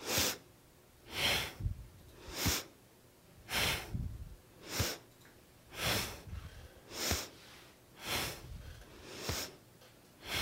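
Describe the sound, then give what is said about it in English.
Slow, deliberate inhales and exhales during a hatha yoga session. Many soft, airy breath cycles repeat at a steady rhythm of about one per second, each swelling and fading with no talk over them. “So inhale, exhale.”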